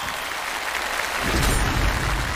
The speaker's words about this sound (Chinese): 回答正确，掌声鼓励。